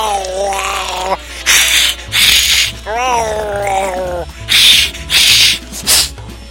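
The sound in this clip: A voice imitates a very angry cat, alternating long, wavering yowls with several loud, sharp hissing spits in a rough, uneven rhythm.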